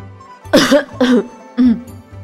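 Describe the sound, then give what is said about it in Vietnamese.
Dry coughing after choking on tea: three short, harsh coughs, the first two close together and the third after a brief pause, over a low steady hum. “Triển Chiêu bị sặc nước trà, ho khan vài tiếng”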